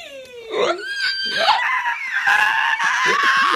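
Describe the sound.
A man's voice imitates a man screeching, giving a loud, high, wavering squeal with sliding pitch. The sound is harsh and strained and runs unbroken for over three seconds.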